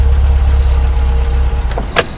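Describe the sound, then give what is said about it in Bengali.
A white car pulls up in front of a college gate at night, its engine giving a steady low rumble, with a couple of brief clicks near the end. “রাত 11:05, একটা সাদা গাড়ি এসে কলেজের গেটের সামনে দাঁড়ালো।”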